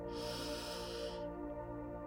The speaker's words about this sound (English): Everything is taken care of. You've got a handle on everything that you need to do. Just inhale with me now.